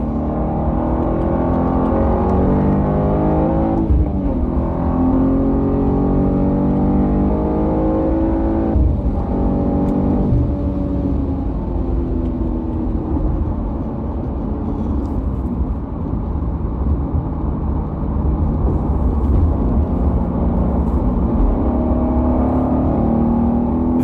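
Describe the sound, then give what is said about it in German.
A BMW M2 G87 accelerating hard from fourth gear at 50, its engine a loud, continuous, rich roar that holds strong throughout with no talk over it. “Irgendwie so vierter Gang bei 50 und dann gibst du einfach mal Gas.”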